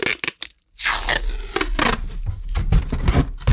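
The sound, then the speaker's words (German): Packing tape ripping off its roll: a few short, crackly tearing bursts, a brief pause, then a sustained rough, rasping peel that runs loud and steady to the end. “Ich kann das Klebeband sogar wieder zurück auf die Rolle kleben und dann wieder abziehen.”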